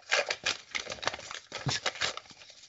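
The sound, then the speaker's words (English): Envelope crinkling as mail is taken from a mailbox: many soft, quick paper crackles and rustles in an irregular patter. “Crinkles. Oh no. There's only one thing in the envelope this week.”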